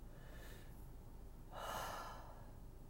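A deep breath is drawn in through the nose and mouth: a single soft, airy inhale that swells and fades midway through, faint against a quiet, steady background hiss with no talking.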